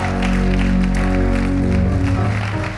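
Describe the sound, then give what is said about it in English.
Church audience claps to welcome visitors at a morning service, with a wash of applause over loud sustained musical tones that fill the low and middle range throughout. “Church, can we put our hands together and welcome our visitors this morning?”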